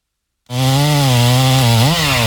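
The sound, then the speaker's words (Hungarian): A chainsaw cutting down a giant pine tree in a neighbours' yard roars to life after a brief silence, then holds a loud, steady buzzing drone with one short rev near the end. “A szomszédék spórolni akartak, és maguk kezdték el kivágni az udvarukban lévő óriási fenyőfát.”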